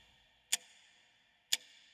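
Two crisp clock ticks, sharp and brief, spaced roughly a second apart over a faint steady hiss.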